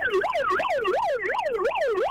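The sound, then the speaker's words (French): A voice imitates a wailing siren, its pitch sweeping up and down in repeated smooth cycles, loud and continuous throughout with no other sound. “La sirène, la sirène, la sirène. Bonjour. Fais la sirène.”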